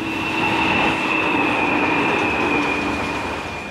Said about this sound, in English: here comes the train